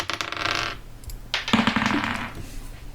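Dice clatter as they are rolled for an investigation check in a tabletop role-playing game, giving a couple of bursts of rattling, tumbling clicks over a low, steady hum.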